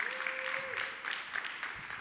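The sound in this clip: A Baptist church audience applauds steadily throughout, a dense patter of many hands, with one sustained woo of cheering rising over the clapping early on and tailing off just before the middle.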